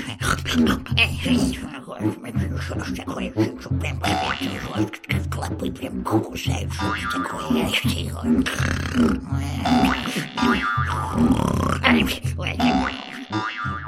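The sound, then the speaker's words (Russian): An old woman snores in long, rough, rumbling breaths that grunt and rattle continuously over a dense, busy background. “Сказала старуха, повернулась к стене и захрапела.”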